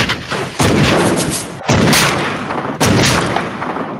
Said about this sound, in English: That's my shot. Shots fired to that.